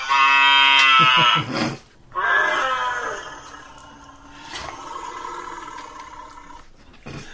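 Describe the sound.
A long, loud belch after eating leftover pasta, tonal and bleat-like like an animal's groan. It breaks off briefly, resumes, then trails into a quieter, drawn-out rumble.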